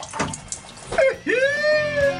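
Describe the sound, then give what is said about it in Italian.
An automatic self-cleaning bidet toilet spraying: watery rushing noise, a brief clunk, then a rising whine that settles into a steady tone until the end. “ecco i famosi cessi che ti puliscono il culo automaticamente. Tac, selezioni, bagno bidet e poi muovi. Tac, esce e ti spruzza.”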